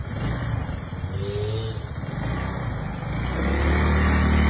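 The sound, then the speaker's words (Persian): A motorcycle engine runs as a young woman, riding for the first time, sets off. A steady mid-pitched rumble grows louder toward the end, with no voices. “برای اولین بار موتور دادن دست دختر خانم. ببینم الان میره ها دختره.”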